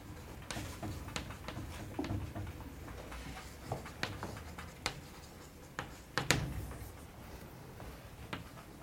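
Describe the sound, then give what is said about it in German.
Handwriting during a mathematics lecture: many faint scratching strokes and light taps in an uneven rhythm. “Also ich schreibe es nochmal hin.”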